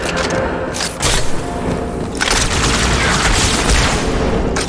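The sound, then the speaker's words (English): A turret gun fires in a video game, heavy booming bursts of automatic fire over a continuous rumble, with a few louder blasts standing out. “This turret gun has quite a lot of auto aim on it.”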